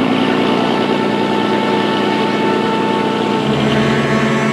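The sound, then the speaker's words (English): A motorboat engine drones steadily as the boat heads down a channel toward the open sea. The sound is loud, rough and continuous, with no break and no voices. “The two men motor down the channel toward the open sea.”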